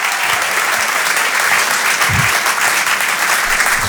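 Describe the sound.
A comedy club audience applauds a comedian arriving on stage, with continuous loud, even clapping that fills the whole stretch.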